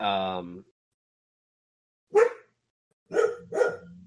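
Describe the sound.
A voice imitates a dog barking. A sustained voiced sound comes first, then after a pause three short loud barks, the last two close together.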